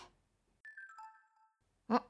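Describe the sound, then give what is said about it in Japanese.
A mobile phone message notification chimes: a short electronic alert of a few clear tones stepping down in pitch, heard alone and faint, followed by a brief soft vocal sound. “ん、なんだろう、携帯？あの子からメッセージだ。”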